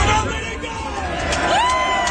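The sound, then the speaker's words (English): A crowd cheers and murmurs at a political rally while a man speaks over the noise. The crowd sound stays as a continuous moderate wash of babble and cheering beneath the voice. “That's a pretty good crowd.”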